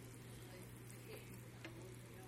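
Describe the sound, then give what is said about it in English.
Shrimp sizzle steadily in a frying pan as each one is flipped over, a soft, even hiss with a couple of faint clicks. “So I'm just flipping over each little shrimp here.”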